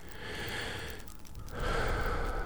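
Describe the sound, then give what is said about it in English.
A big deep breath taken during meditation, a steady airy rush that swells louder in its second half and holds there, with no talk over it. “when I take a big old deep breath like that, I invite you to do the same thing”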